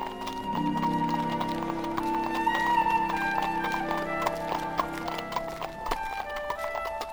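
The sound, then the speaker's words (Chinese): Hooves of a horse pulling a carriage clip-clop in a steady, even rhythm of many clear knocks, heard alone without talk and holding a constant loudness throughout. “一行人坐着马车去到河边”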